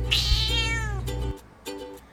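A cat meows twice: a long, loud meow whose pitch falls, over a low steady hum, then a shorter meow.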